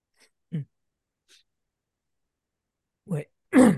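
Throat clearing comes in a few short, rough bursts separated by silence. The final burst is the loudest and fullest.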